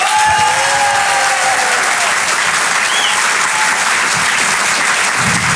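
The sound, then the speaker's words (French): Audience at a live comedy show applauding and cheering: dense, loud, continuous clapping fills the whole clip at a steady level, without speech over it. “Je vous demande de l'encourager très chaleureusement et de faire un maximum de bruit s'il vous plaît pour Thomas Marty.”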